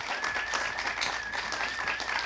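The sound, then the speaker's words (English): Audience applause at a live music fundraiser taping, a dense, steady wash of many hands clapping that holds at an even level from start to finish. “Let's give them a little round of applause.”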